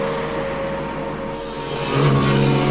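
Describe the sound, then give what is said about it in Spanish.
A motorcycle engine accelerates past a car stopped on the shoulder of a road. The engine drones steadily with a strong humming tone, then grows louder and deeper toward the end. “El motorista acelera, pasa junto al coche de Anclara.”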